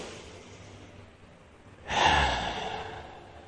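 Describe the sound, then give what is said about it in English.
A single deep breath drawn in, heard as an airy rush of noise that swells suddenly and then slowly tapers away against a quiet background. “So again, we take a deep breath in.”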